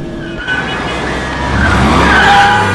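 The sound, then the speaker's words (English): Car speeding and skidding through traffic: a loud, continuous engine roar with high, thin tire squeals that rise in strength over the second half. “He continues snaking the car through the traffic.”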